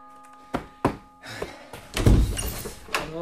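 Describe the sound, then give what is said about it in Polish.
A front door being opened, giving a few sharp knocks and thuds followed by a louder, longer clunk and rattle of the latch and door. “Już otwieram!”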